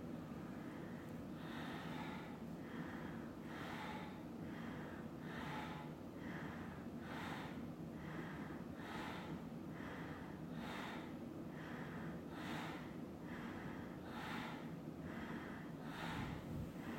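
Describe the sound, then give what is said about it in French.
Forceful nasal exhalations from a breath of fire yoga breathing exercise repeat in a steady rhythm of roughly one sharp puff per second. Many even bursts sit faintly over a constant low hum. “Rappelez-vous aussi pourquoi vous faites ce souffle. Un souffle de feu, de puissance, d'énergie.”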